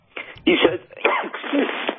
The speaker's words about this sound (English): You're getting sneezing and coughing, right?